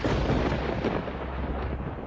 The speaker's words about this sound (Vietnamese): Đột nhiên từ đâu nổ ra một âm thanh rất lớn. Cánh cửa gỗ đổ ập xuống.